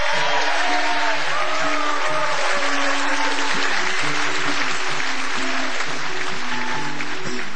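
Audience applause welcoming a singer to the stage: dense, sustained clapping that holds steady throughout.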